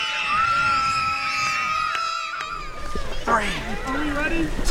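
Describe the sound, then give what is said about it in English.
Children at a summer camp shout a loud battle cry while swimming and bobbing in the water by the docks. Excited, overlapping yells and screams carry through the whole stretch, with people talking. “Can I hear your battle cry?”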